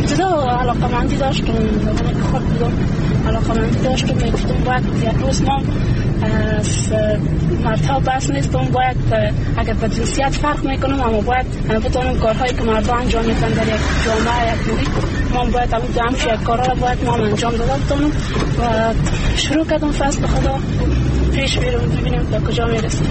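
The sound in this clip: A car is driven by a woman along a rural road leading to her village north of Kabul, its steady engine rumble and road noise running continuously under her conversation.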